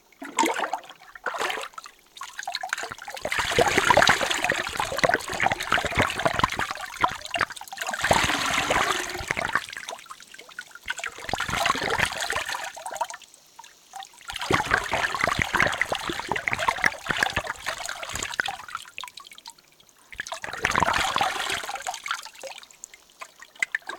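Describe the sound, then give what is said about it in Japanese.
Water rinsing and pouring in several long, rushing surges separated by brief quiet gaps, loud and steady, with no talk. “そのまま閉じたまま、もう少しお流しいたしますね。”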